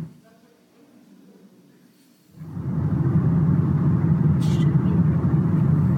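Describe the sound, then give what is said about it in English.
Vehicle riding through a rocky tunnel: after a quiet start, a loud, steady low rumble of engine and road noise rises abruptly and holds, dense and continuous to the end. “That was about a 2-minute ride through a tunnel.”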